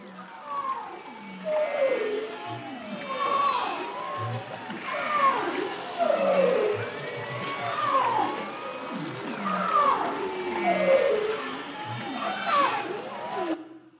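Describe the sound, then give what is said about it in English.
Arctic marine mammals calling underwater in spring form a dense, continuous chorus of overlapping swooping whistles, trills and moans that slide up and down in pitch without pause. “Arctic marine mammals live in a rich and varied underwater soundscape. In the spring, it can be a cacophony of sound.”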